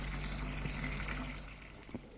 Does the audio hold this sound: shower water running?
yes

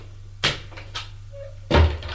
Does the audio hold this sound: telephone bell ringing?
no

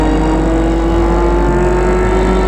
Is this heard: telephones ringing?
no

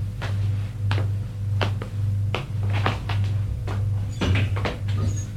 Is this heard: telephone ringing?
no

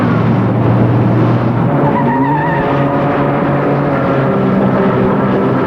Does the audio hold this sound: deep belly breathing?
no

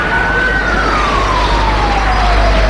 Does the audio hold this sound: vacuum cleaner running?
no

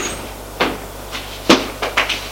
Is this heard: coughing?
no

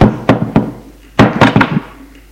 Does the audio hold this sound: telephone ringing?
no

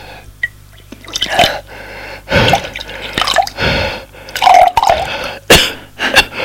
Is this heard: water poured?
yes

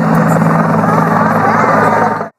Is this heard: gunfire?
no

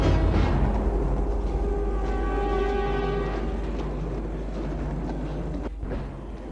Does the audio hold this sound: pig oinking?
no

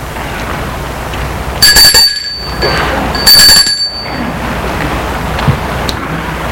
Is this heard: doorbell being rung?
yes

